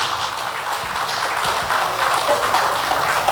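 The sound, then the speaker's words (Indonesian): Applause welcoming the Mayor of Batam, who also heads the Batam Indonesia Free Zone Authority, at a formal event: a dense, steady wash of clapping that holds at an even level throughout. “Baik, kami sampaikan selamat datang untuk Wali Kota Batam sekaligus Kepala Badan Pengusahaan Batam, Bapak Haji Amsak Rahmat. Boleh tepuk tangannya.”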